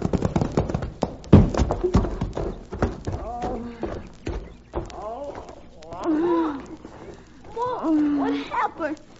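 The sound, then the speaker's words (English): Horses' hooves pound a sun-baked road as a panicked team pulls a wagon, with rapid clip-clop beats loudest in the first few seconds, then a voice talking over the continuing hoofbeats. “their hooves pounded on the sun-baked road like war-maddened Indians on their drums”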